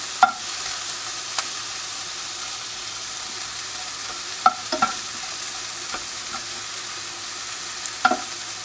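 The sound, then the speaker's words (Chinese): Shrimp and onion sizzle in a pan over medium heat with a steady, even hiss, broken by a few faint clicks of a spatula stirring against the pan. “接着呢，我们加入虾仁，让它炒熟。你可以稍微把洋葱拨到旁边。”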